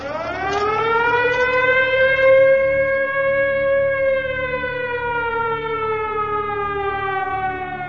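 A factory siren sounds in the evening with one long, loud, continuous wail. It rises slightly at first, then holds and slowly falls in pitch as it winds down.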